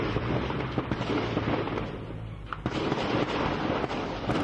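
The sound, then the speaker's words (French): Intense gunfire in Haiti forms a dense, continuous roar of overlapping cracks and bangs, with a few sharper reports standing out. “Des tirs intenses, une fois de plus en Haïti.”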